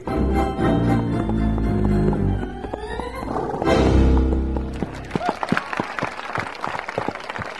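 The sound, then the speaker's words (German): A small pony in a circus ring whinnies with a falling, wavering call amid clapping. Its hooves then clip-clop in quick, rhythmic steps as it trots. “Aber dieser Champion ist kein Mensch, kein Olympiasieger. Es ist ein kleines, liebenswertes Pony.”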